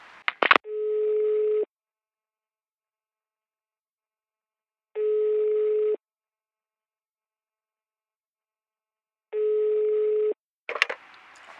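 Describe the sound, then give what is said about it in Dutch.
A telephone answering machine gives three identical electronic tones, each about a second long and evenly spaced by several seconds of silence, with brief clicks near the start and end. “Ik hoorde je bericht. Handig, hè, zo'n antwoordapparaat.”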